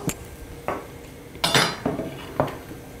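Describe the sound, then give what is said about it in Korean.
Clinking of dishes as bowls are taken out in a kitchen while cooking with a starch slurry and a stir-fry pan: several sharp, bright knocks and clatters come in an uneven sequence, with no voices. “이렇게 한 다음에, 자, 그 다음에 여기 그릇도 좀 꺼내고,”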